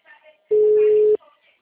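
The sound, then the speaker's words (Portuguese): One steady telephone call tone sounds for under a second while a call is placed again, with faint voices just before and after it. “Tô ligando de novo.”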